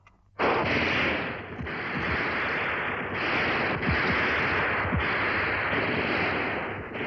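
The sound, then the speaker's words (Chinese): Rifle gunfire in a battle against advancing enemy troops, heard as a loud, dense and sustained crackle of overlapping shots with scattered sharper cracks and no voices. “战斗中，战士们对准肆无忌惮进犯的敌人，瞄准射击。”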